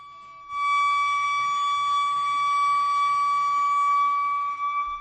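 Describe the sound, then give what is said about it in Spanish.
An alarm bell of the kind that marks the end of lunch or recess rings as a loud, steady, high electronic tone. It starts abruptly after a brief quiet moment, holds unbroken for about four seconds, then stutters and stops. “Pues yo creo que puede ser a lo mejor la alarma del final de un comedor o de un recreo”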